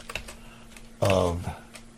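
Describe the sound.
Computer keyboard typing as a comment is written: a few scattered keystrokes with a brief voice breaking in between them.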